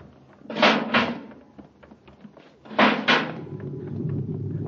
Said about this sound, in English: Full repeller ray. Quick now, open the inner hatch.